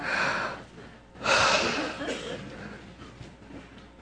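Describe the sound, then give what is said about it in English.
Breathing, with a couple of airy, hissing breaths, one near the start and a louder one shortly after, fading into softer breath noise, with no talking. “Take a breath.”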